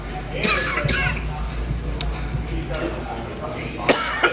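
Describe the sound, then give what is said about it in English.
Harsh coughing from someone choking on pizza, a few rough bursts rising over a steady background of voices. “Holy shit. Oh, shit. I'm like choking on pizza.”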